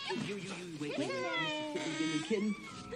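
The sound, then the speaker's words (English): Kitten meowing in a barn, a few high, wavering mews in close succession, each bending up and down in pitch. “Little wee cat. The kitten scampers through the barn. Kitten?”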